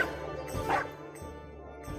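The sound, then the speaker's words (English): A dog in a tabletop fantasy game gives a few short, fairly faint barks and yips, spaced unevenly across the moment. “Do we have any way to communicate with this dog and find out its quandary?”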